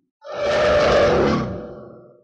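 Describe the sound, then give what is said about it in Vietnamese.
A deep, earth-shaking roar from a humanoid monster: one sustained, rough blast that swells fast, holds for about a second and slowly tails away, heard alone without speech. “Tiếng rống này chấn động đất trời”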